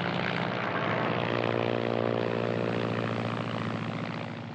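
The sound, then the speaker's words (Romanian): An airplane coming in to land: a steady, throbbing propeller-engine drone that holds at a constant level, then eases slightly toward the end, with no voices. “Vine spre punct. Aterizează!”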